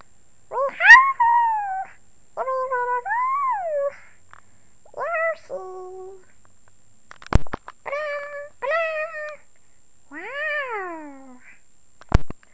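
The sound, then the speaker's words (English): A voice imitates Yoshi, the video game character, with a string of high, squeaky, bending chirps and calls, alone and without speech, broken by a couple of sharp clicks. “Here is some Yoshi noises. If it would please. Yoshi!”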